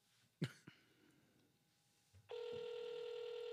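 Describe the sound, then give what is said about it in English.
A ringback tone on an outgoing phone call starts abruptly and holds as a loud, steady buzzy tone to the end. It follows a sharp cough-like burst, a softer knock and quiet background. “Hold on. It might be him. Shh. It's ringing!”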